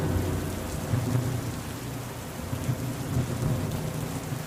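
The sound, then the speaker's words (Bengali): Torrential rain pouring down at night, a dense, steady roar of downpour over a deep low rumble that continues throughout, with no voices. “মুষলধারায় বৃষ্টির জন্য চারিপাশে কিছুই দেখা গেল না”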